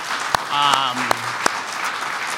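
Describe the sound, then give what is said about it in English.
Audience applause inside the Rothko Chapel at the Óscar Romero Award ceremony, a steady wash of clapping with a few sharper claps standing out and a brief voice rising over it. “So big hand for all who are here.”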